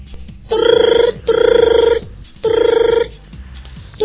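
A telephone rings loudly in three long electronic bursts separated by short gaps, and a fourth ring begins at the very end. Each ring is a steady, buzzing, harmonic tone with no talk over it.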